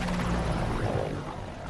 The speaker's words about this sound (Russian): Из ущелья вылетают два других вертолета, пролетают над грядой.